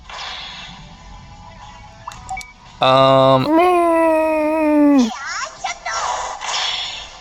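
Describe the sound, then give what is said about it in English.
Patamon's Air Shot attack from the PSP game Digimon Adventure: a whooshing burst gives way to a loud, high, sustained childlike cry lasting about two seconds, followed by a few airy, breathy gusts. “Oh, thank gosh, a bonding combo. Air shot. From little Patamon.”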